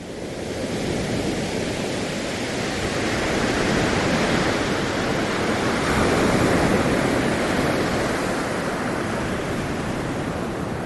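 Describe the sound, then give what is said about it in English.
Ocean waves picked up through a microphone make a loud, continuous wash of surf that swells gently through the middle and eases slightly toward the end, with no voices. “Wow, it's almost like you've never heard a wave before.”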